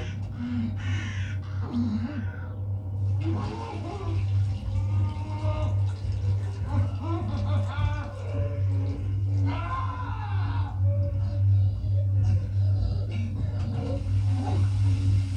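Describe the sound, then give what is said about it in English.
Crows cawing again and again in a film scene, harsh, throaty calls at irregular intervals over a low, constant hum and rumble. “And then the birds.”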